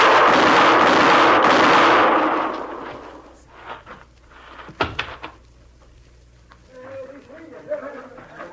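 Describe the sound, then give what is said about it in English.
Gunshots go off in a quick cluster of sharp cracks after a stretch of loud, broad rushing noise. Voices follow. “You got him, Mr. Dillon. You got him. Yeah. You hit him all three shots.”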